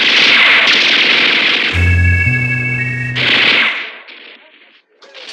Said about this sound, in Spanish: ¡Atáquenlo! ¡Disparen todos a matar! ¡Fuego! ¡Fuego! ¡Fuego!